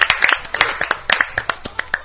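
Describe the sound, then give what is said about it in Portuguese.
Audience applause: a burst of hand clapping with many sharp claps in a steady, slightly uneven patter, fairly loud and with no talk over it. “Vamos botar uma salva de palmas pra dona Mãe Terrible.”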